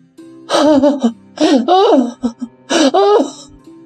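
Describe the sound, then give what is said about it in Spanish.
A faun sobbing and crying, voiced by a person: a few loud, wavering wails with catches of breath between them, and one short gasp-like sob in the middle, heard alone. “No llore más, por favor. Pare inmediatamente de llorar.”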